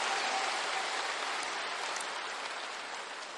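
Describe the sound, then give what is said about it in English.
Applause from an audience during a church thanksgiving service, a dense, even patter of many hands clapping that holds steady and eases slightly toward the end. “Give God another big hand one more time if you can,”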